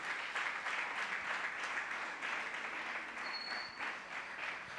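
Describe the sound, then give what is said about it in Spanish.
A church audience applauding, steady dense clapping throughout, moderately loud and even, with no talk over it. “Le damos un aplauso a la palabra del Señor.”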